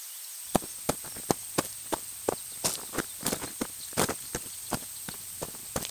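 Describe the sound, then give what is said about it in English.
Running footsteps head back toward a town center, a quick, regular run of many sharp impacts that keeps an even pace and varies a little in loudness, with no voices. “Now, as Taven runs back towards the town center, he leaves Celeste with more questions than answers.”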